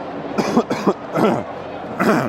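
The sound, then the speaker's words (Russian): A person coughs in a few harsh, breathy bursts at an irregular rhythm. Two come quickly, then a longer one, and one more near the end, all fairly loud. “Прости, что я кашляю.”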